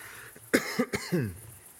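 Coughing: a few short, harsh bursts in quick succession, the last with a rougher, throaty tail, heard alone without talk.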